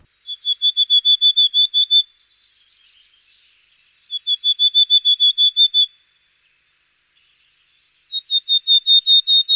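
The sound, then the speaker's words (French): Willow tit song from the forest edge at altitude: three loud phrases of rapid, evenly spaced, clear high whistled notes, each phrase about eight to ten notes, separated by short pauses. “Voilà, donc la mésange boréale que l'on peut entendre plutôt en altitude, donc en limite de forêt.”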